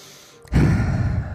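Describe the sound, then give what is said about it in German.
A single deep breath follows a brief near-silence, then rushes in as a loud, airy, breathy sound that holds steady to the end. “Und du nimmst einen nächsten Atemzug.”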